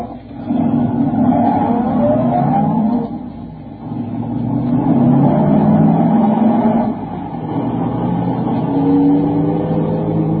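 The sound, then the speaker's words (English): A car engine revs and accelerates at night in several surging pulls, with rising whining tones and brief dips between them, loud throughout and with no talk. “I'm going to drive to the atomic center.”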